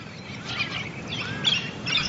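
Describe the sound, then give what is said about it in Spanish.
A cockatoo calling at its nest atop a rocky pinnacle while placing branches: a few faint, sharp chirps rise above a steady hiss of background noise, with no voices. “Una cacatúa en la cima de uno de los pináculos. Coloca las ramas para construir su nido.”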